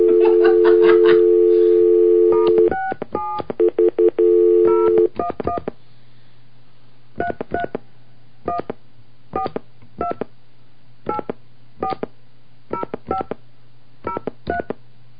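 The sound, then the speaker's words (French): A telephone number is dialed with touch tones. A steady dial tone sounds first, then short bursts of keypad beeps, a second stretch of dial tone, and a longer run of many evenly spaced beeps over a faint low hum. “Bon, alors on y va. On va composer le numéro.”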